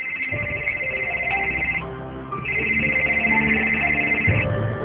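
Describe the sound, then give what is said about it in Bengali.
A phone ringtone plays as a bright, melodic electronic tone in two bursts separated by a short pause. It is moderately loud and heard alone, with no voices. “তোমার phone বাজছে। হ্যাঁ, একটা জরুরি phone, আমি আসছি।”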